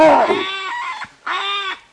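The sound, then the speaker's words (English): An agitated male savanna baboon in Botswana, turning aggressive on a female, gives two harsh, strongly harmonic calls: a longer, louder cry and then a shorter, steadier one after a brief silence. “I give you the savanna baboon, male of the species, doing what he does best.”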